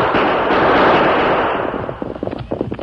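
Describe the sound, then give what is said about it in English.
Gunfire in a Lone Ranger radio drama as the masked rider and Tonto shoot to drive off three pursuing riders on a trail: a dense, loud roar of blasts that gives way to a rapid scatter of sharp cracks. “Use your guns, Tonto. We'll drive them off.”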